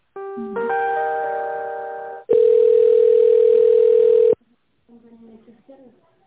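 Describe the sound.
Telephone tones play while a call is transferred inside a company: a sustained multi-note electronic chime fades slightly over about two seconds, then a loud, steady single tone holds for two more seconds, followed by brief faint sounds.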